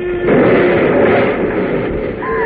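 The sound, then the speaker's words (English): A model rocket crashes and explodes in a radio drama sound effect, a loud, muffled rumbling burst that holds steady for the whole stretch, with a faint tone creeping in near the end. “Look, the rocket is coming down. Great Scott, it's on fire. They don't know the secret. They've done something wrong. It's going to land right near us. What do we do? Get down. It may explode.”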